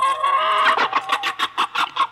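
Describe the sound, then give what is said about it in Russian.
A hen cackles after laying an egg: a loud, held squawk breaks into a rhythmic run of sharp, repeated clucks. “Чего это она так раскричалась? Яйцо снесла и хвалится.”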